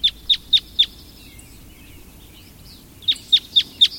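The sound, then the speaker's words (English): Red crossbill calls: sharp, high chip notes in two bursts of four evenly spaced calls, with a quiet gap between the bursts. “That's the sound of a red crossbill.”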